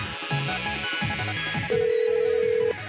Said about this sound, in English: I'm going to call back and see if she really has blocked it.